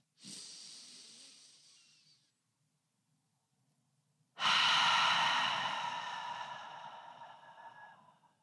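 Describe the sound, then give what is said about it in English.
A deep breath drawn in through the nose and then let out through the mouth: a soft, airy inhale, a short pause of silence, then a longer, louder exhale that slowly fades. No voices. “Take a deep, deep breath in through your nose and then out through your mouth.”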